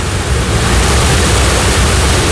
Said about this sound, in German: Und ihr hört es jetzt vielleicht schon im Hintergrund. Wir sind jetzt auf einer Brücke in der Wolfsschlucht. Unter uns ein Fluss, ein Bach.